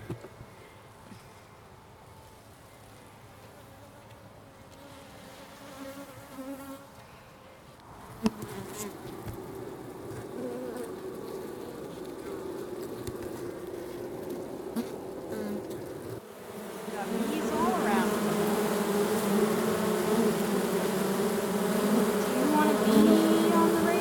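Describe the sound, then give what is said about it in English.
Honeybees buzz inside a beehive, a dense, steady droning hum that holds throughout and grows noticeably louder and fuller in the later part. “We're going in. We're going to take you inside the hive.”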